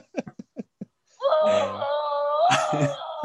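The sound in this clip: A moaning scream from one voice: a few short clipped vocal bursts, then a long, loud, wavering moan-like wail with rich harmonics that holds for about two seconds.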